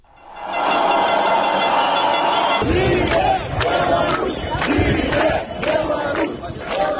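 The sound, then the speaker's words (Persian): A street protest crowd marching in Minsk, Belarus, roars and chants loudly, a massed wall of voices swelling into rhythmic, repeated shouted bursts. “ابتدای گزارش صدای تظاهرات را می‌شنوید”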